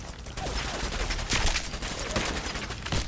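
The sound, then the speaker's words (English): Shotgun fire in a video game: several sharp gunshot blasts go off in quick succession, each a loud burst over a constant layer of noisy game sound. “Give me my shotgun.”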